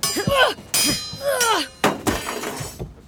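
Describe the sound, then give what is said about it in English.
A sword clatters to the ground during a staged sword fight, with sharp metallic clangs and crashes. A few abrupt, bright bursts are broken up by short vocal sounds between them. “I dropped my sword. Pick it up then.”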